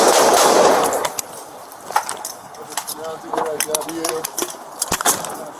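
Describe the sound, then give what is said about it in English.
Gunshots go off during an armed confrontation, a few sharp, loud cracks after an opening burst of noise, with voices heard around them. “Shots fired.”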